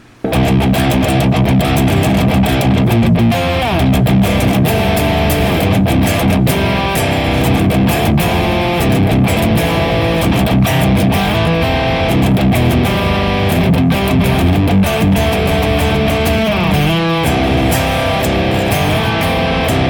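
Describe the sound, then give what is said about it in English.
Heavily distorted electric guitar from a Rat drive pedal used as the preamp into a 6L6 power tube section, through an Uberschall 75-412 Gargantuan cabinet impulse response on a Boss IR200. Loud, dense, continuous playing with no voice. “I'm taking the Rat drive pedal and using it as the preamp, running it into a 6L6 power tube section, and then powering the Uberschall 75-412, which is the Gargantuan, which is also the Giant. When we use the Impulse Response Loader, or the Boss IR200, it sounds like this.”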